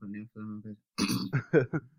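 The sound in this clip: Throat clearing from someone with something stuck in the throat: three short voiced grunts, then a run of harsher, raspy hacking bursts of uneven loudness.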